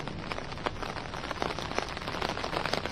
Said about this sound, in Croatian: mislim da i možete vidjeti koliko kiša pada negdje neprestano, već skoro sat vremena pada i intenzitet padavina se pojačava